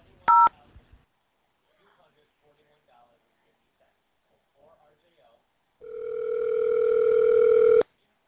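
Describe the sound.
A single short telephone keypad tone as zero is dialed on an automated phone menu. Quiet follows, then a longer steady tone lasting about two seconds.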